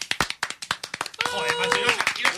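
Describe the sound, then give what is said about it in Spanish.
Applause sound effect: many sharp, separate hand claps at first, then thickening into denser, continuous clapping, with voices present. “hay que meter efecto de aplauso ya”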